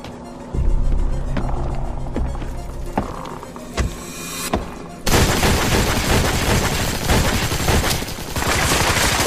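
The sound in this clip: Gunshots in a dubbed animated cartoon: a few sharp, separate cracks ring out, then give way to a sustained, loud burst of dense noise.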